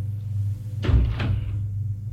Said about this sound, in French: Une porte s'ouvre.